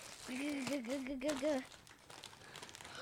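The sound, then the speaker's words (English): A crinkly plastic bag of Lay's Mieng Kam Krob Ros chips is unwrapped, pulled from an outer bag, and crackles faintly and unevenly while a person talks over it. “I'm going to toss the bag over. You're going to pull the bag out of the bag, and you're going to tell the audience what it is. Let's unwrap it like a Christmas gift.”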